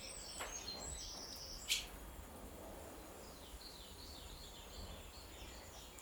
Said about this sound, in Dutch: Het is zo leuk, want de vogels eh, vliegen raaklings over je hoofd langs. De hut in en uit op zoek naar eten.